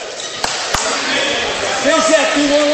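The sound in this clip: Two sharp basketball bounces snap out early during a Fort Recovery versus Jay County high school game, followed by a steady crowd murmur while a man talks.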